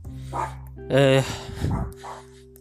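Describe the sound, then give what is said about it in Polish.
Small dogs barking in a few short bursts of sharp yips, with a voice speaking over them. “to jest niestety wina małych psów”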